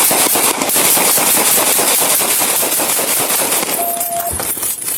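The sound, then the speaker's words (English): Rapid gunfire from a police officer's handgun in a parking lot: many sharp shots in a dense, fast burst that stays loud and continuous throughout. “Did you hear all those shots there? This unfolded in a parking lot on Rock Quarry Road in February.”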